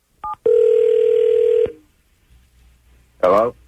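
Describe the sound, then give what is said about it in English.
A telephone call being dialed: a short keypad tone, then a steady electronic tone that holds for just over a second. After a quiet pause, a brief voice answers at the end. “Dial him up”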